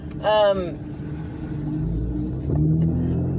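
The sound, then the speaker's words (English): Steady low engine and road rumble inside a car being driven in the rain, continuous throughout, with a brief bright harmonic tone near the start and a slight swell in level later. “Sorry, I'm in my car and people don't know how to drive, especially when it's raining”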